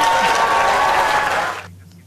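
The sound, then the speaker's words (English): Loud, dense applause from a packed room of Labour Party members greeting a newly declared party leader. The clapping holds steady, then quickly tails off into quiet. “Applause no end on a packed room of members there at the Labour Party setting”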